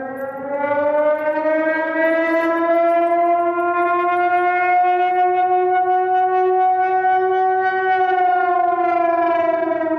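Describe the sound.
Civil defense siren sounding its weekly Tuesday noon test in San Francisco: a loud, steady, sustained wail with rich overtones, its pitch holding nearly level and swelling slightly in the middle, continuous throughout.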